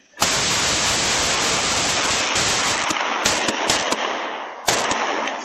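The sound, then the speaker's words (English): Gunfire breaks out in an exchange of shots. A dense, loud barrage of cracks runs almost continuously, with a few sharper bursts standing out toward the end. “fires a warning shot. Then all hell breaks loose. Did you take fire? Yes, I did. They started opening up.”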